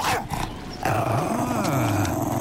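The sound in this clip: A dog growls at a reindeer herder. After a short, rougher opening the growl settles into a sustained, low, rumbling snarl whose pitch wavers up and down, with no voices over it.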